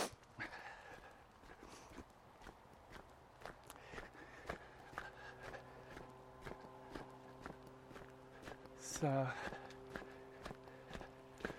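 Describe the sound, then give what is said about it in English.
Footsteps of someone walking down a hill, a steady run of soft, regular steps, with a brief high sweeping chirp cutting in near the end. “Just walking down the hill now.”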